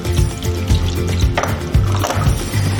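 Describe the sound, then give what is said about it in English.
Liquid from canned beetroot drains into a container while pink hummus is being made: a steady, loud splashing trickle with a few soft knocks against the container. “And we're going to put some beetroot, just standard canned beetroot, into the mix. There you go, I'll just drain that off into here.”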